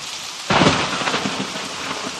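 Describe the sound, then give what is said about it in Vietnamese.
A thunderstorm with heavy rain giving a dense, steady hiss, joined after a short moment by a loud roll of thunder that rumbles on under the downpour. “Giữa tiếng sấm sét có tiếng ầm ầm, không rõ là tiếng gì.”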